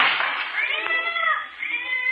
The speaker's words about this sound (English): Oh, it's a cat.